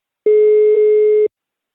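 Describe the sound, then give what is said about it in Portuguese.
Ringback tone on an outgoing telephone call: a single steady mid-pitched beep lasting about one second, loud and clean with no talk. “Tá chamando Guilherme”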